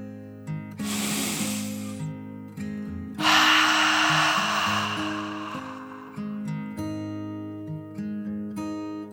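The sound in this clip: A deep breath is drawn in, then let out in a longer, louder, airy exhale, both over soft, sustained low musical tones that continue underneath.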